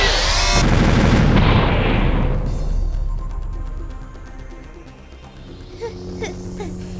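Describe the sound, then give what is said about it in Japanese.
A doll rigged as a bomb explodes with a loud, broad blast that roars for about two seconds, then a long rumbling decay with scattered crackles and small pops as debris settles, ending in faint ringing tones. “まさか人形爆弾代わりにするとは思わなかったわ。”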